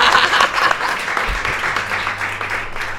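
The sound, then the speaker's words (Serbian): Spontaneous audience applause requested at an education talk, dense and steady clapping from many hands that stays loud throughout, with no voices over it. “Evo, mogu li jedan aplauz dobiti onako spontanu?”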